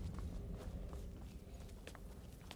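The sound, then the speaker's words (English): Footsteps climb steps in a video game: soft, irregular treads over a steady low rumble, with no voices. “Here we go. We're heading up the steps.”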